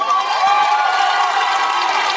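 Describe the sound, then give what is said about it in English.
Crowd cheering and clapping at Liberty University during a political speech: a loud, dense roar of voices and applause that runs unbroken from start to finish. “The people cheering there were the people whose mommies and daddies made them go to Liberty University”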